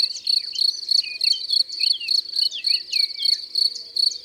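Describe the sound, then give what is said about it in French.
Field crickets chirp, big black crickets with a golden-yellow shoulder band, dozens calling at their burrow entrances: many high, bright chirps repeat in a steady, even rhythm, with no voices. “C'est le grillon des champs, ce bon gros grillon noir avec une bande jaune dorée sur les épaules.”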